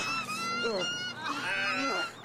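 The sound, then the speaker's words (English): Computer-generated birds attacking people in a film let out loud, honking, goose-like cries. Several harsh calls with sliding pitch overlap almost without pause. “Oh, the birds are attacking the people. Oh, they're all dead. There's four people. The other girl's dead. They're all already getting killed by the CGI birds.”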